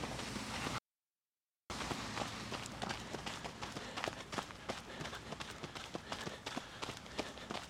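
Running footsteps of two people jogging side by side, a steady, rapid rhythm of many crisp footfalls over a low, constant background noise.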